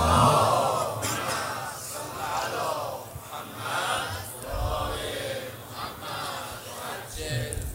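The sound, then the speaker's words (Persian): Voices of a gathered crowd rise together in a unison salawat. The chant comes in loud swelling surges with brief dips between phrases. “یه صلواتی من رو بفرمایید.”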